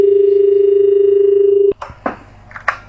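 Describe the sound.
A caller's phone line connects on a radio phone-in. A loud, steady telephone tone holds for nearly two seconds, then cuts off with a click, followed by a few faint crackles on the line.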